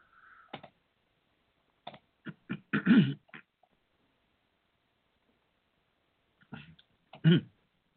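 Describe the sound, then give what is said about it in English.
Throat clearing from a lone speaker: a few small clicks and two rasping clears, each separated by stretches of silence. “excuse me a minute. I'm going to clear my voice here.”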